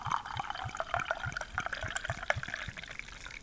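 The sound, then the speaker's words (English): Beer glugging out of a tilted bottle as air bubbles back in, a steady rhythm of many quick gurgling pulses over a wet splashing pour, fairly quiet and even throughout. “You could hear the glug of the return of the air going into the bottle even. It was all in the angle, man.”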